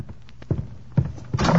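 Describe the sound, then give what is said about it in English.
A closet door being opened: a few dull thumps, then a brighter, longer scraping sweep at the end. “Fawzi, go to the closet. Open the door.”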